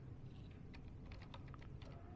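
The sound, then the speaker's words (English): Typing words on a computer keyboard: many soft, quick key clicks in an irregular rhythm, faint over a steady low hum. “Or I could do this. I could type in the words”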